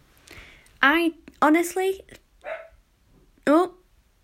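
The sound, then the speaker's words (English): Dogs bark outside at someone passing by: a few sharp, loud barks in irregular bursts, with short gaps of quiet between them. “I think someone's passing by outside. I'm sorry if you heard, I'm sorry if you can hear the dogs barking.”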